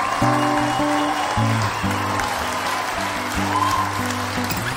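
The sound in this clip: Audience applause welcoming a performer, a steady wash of clapping that continues throughout over sustained musical chords.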